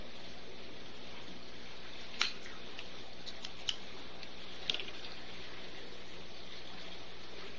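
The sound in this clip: A Drew Estate Java Red cigar is cut, heard as three faint, sharp clicks spread over a quiet, steady hiss, with no talk.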